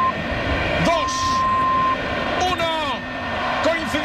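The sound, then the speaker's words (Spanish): A single long, steady mid-pitched beep of a radio time signal marking nine o'clock at night, sounding over crowd noise and voices just before a Spain–Portugal football match in Dallas kicks off. “Señales horarias de las 9 en punto de la noche.”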